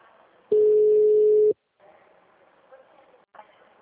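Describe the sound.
A single steady telephone tone, about one second long and fairly loud, sounds as a call is placed from a phone box, followed by people talking.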